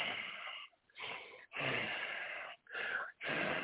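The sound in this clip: A voice imitates the congested, snuffly breathing of a baby with mucus blocking its nose: five rough, wheezing breaths in a steady rhythm, fairly quiet.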